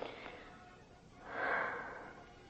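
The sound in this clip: Deep breathing beside an open window: one slow, airy breath that swells to a soft peak and then fades, faint over a low steady hiss.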